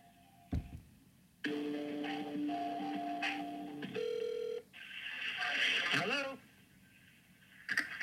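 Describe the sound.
A telephone call rings out to voicemail, with faint electronic tones and a steady held tone, followed by a short stretch of recorded voice and then quiet.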